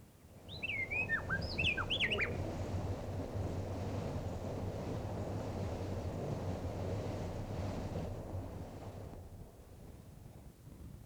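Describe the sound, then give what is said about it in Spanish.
Nestling birds calling from a nest in Colombia give a quick burst of thin, high, squeaky chirps early on, followed by a long stretch of steady rushing background noise. “Una bella sorpresa. Un nido con pichones.”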